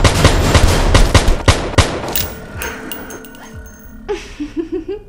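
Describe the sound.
Rapid gunfire from a video game, with dense bursts of loud shots in the first two seconds, then sparser, weaker reports and a few short sharp hits toward the end.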